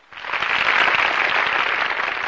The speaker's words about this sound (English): the women rise in a standing ovation, directing their applause to the slim, elegant lady seated next to Sam